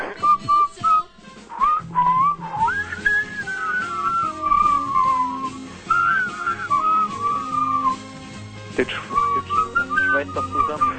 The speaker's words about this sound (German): Weiter pfeifen, Mensch, Kinder!